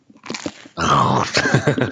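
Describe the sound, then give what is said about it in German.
Crunching bites into crusty, crunchy bread: a few short crisp bites, then a denser stretch of loud, gritty chewing crunches. “Jetzt kann ich auch wieder in mein Brot beißen.”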